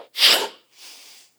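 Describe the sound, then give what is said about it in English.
A voice imitates God breathing into Adam's face: one loud, forceful breathy rush of air, followed by a softer, longer exhale that trails off. “But the same breath when God put his lips face to face with Adam and went,”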